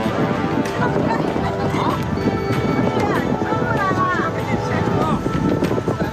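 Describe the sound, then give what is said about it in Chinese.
Running footfalls of a wild camel charging toward a vehicle convoy, a steady run of dull hoof thuds under people talking. “一峰野骆驼在距离300米的胡杨树边奔跑。正当我们下车拍摄时，它突然调转方向向车队跑来。”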